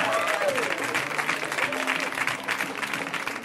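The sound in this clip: An audience applauds a comedian with dense, sustained clapping, a steady wash of hands that stays loud throughout with faint crowd noise mixed in.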